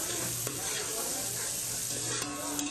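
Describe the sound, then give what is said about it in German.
Onions and carrots fry on a small gas cylinder stove in a hut in a workers' settlement near New Delhi, giving a steady, dense sizzle with stirring throughout and no voices. “In einer der Hütten brät ein Arbeiter Zwiebeln und Karotten an, auf einem kleinen Gaszylinder.”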